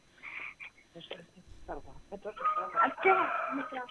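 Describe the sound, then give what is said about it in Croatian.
A rooster crows loudly in a few bright, strained calls that rise and fall, mixed in with people talking close by. “A boga mi, taj pijetao je vrlo glasan.”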